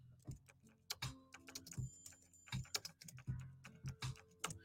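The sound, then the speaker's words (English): Typing on a computer keyboard: rapid, irregular key clicks and taps, fairly faint, running throughout over a low steady hum. “I gotta type this in.”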